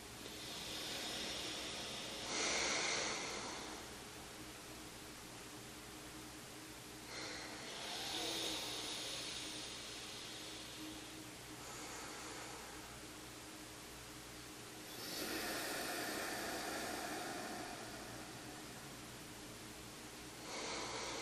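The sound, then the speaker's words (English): Slow, airy breaths drawn and released through one nostril during alternate nostril breathing, soft hissing inhales and exhales that swell and fade in a few long, unhurried cycles. “you start on the left side with thumb over the right nostril. So I will leave you to it. Take in a nice deep breath.”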